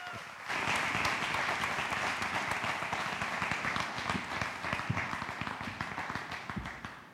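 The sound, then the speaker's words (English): An audience at a church service applauds as a bishop comes to the stage. Dense clapping starts abruptly after a brief quiet moment, stays loud and steady for several seconds, then tapers off at the end. “put your hands together and welcome Bishop Garner to the stage”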